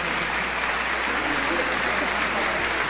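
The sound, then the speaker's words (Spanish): Audience applause at a symphony orchestra concert: a dense, steady wash of many hands clapping, fairly loud and even from start to finish with no clear breaks. “Si son tan amables, vamos a darles a mí un aplauso.”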